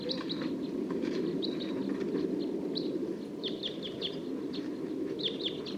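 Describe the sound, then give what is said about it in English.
Wild bird song as a flock takes off: many short, high chirps scattered throughout, over a steady, dense rushing noise that continues the whole time. “Song of one of the wild birds. And the flock's taking off.”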